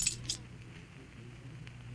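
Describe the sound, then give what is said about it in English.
Keys jangling on a key ring, a brief bright metallic jingle at the very start that quickly gives way to quiet. “But what about your key? Well, it's right here. I always keep it right with me.”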